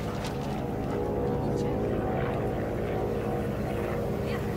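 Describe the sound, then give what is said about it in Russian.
Bomber aircraft flying away: a dense, steady engine drone with broad rumbling noise that stays at an even level throughout. “Одна из них смотрит вверх, провожает взглядом удаляющийся бомбардировщик.”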